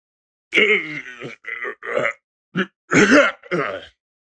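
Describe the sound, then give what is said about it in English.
A man hawks up a thick rope of phlegm in several harsh, guttural bursts of throat-clearing rasps and grunts, loud and isolated with silent gaps between. “Just like a disgusting, thick rope of phlegm and mucus just rockets out of his clavicle and up his esophagus and straight out the mouth.”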